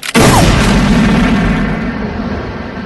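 A gunshot fired at an unarmed opponent in a film scene. One sudden, loud blast is followed by a long, rumbling, booming decay that fades slowly, with no voices.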